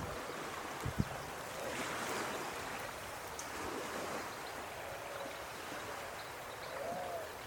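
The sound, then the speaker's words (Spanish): Faint, steady rushing and lapping of water in a continuous soft wash, with no talk. “¿Vos también te quedaste escuchando el agua como viendo el cielo?”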